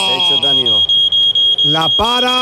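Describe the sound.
A Berisur security alarm in an advert gives a steady, piercing high electronic tone that holds throughout, with a voice speaking over it.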